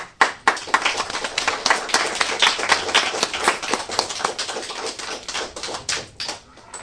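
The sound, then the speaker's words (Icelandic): Audience applause, a dense, continuous clatter of many hands clapping, steady and loud for about seven seconds with no break. “Og ég vil að við klöppum virkilega vel fyrir þessu fólki.”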